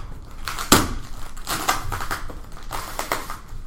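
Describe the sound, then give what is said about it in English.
An overnighted shipping package being ripped open: a loud crack early on, then several tearing rips and crinkling rustles of packaging that come in uneven bursts. “Can you hear it just like ripping and stuff? Yep, that's good.”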